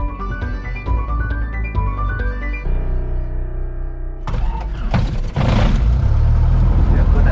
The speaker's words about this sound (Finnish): Hyvin käynti, öljynpaineet nousi ja kierrokset ei karkaa, oli kaunis käynnistys.